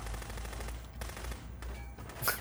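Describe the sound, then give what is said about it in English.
Gunfire in a video game scene where the character voiced by Mickey Rourke is shot: rapid bursts of shots over a steady low rumble, ending in a louder, sharper burst. “We're getting treated to a colorful assortment of swears from Mickey Rourke as he's being shot. Bet you Mickey Rourke didn't even know he was filming a video game.”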